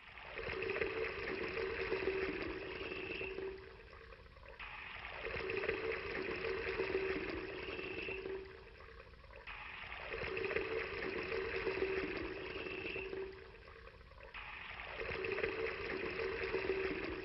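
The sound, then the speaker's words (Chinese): Water pours and splashes over firewood and an offering on an altar in four long, steady gushes separated by short pauses, fairly loud and with no other sounds. “再浇水，不够。还要浇水，”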